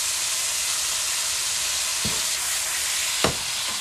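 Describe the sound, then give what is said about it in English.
Food sizzles in a very hot pan, a steady loud hiss throughout, broken by a few brief scraping stirs. “But we're gonna stir this just a second more. Our pan is really hot still. That means this is cooking really, really fast.”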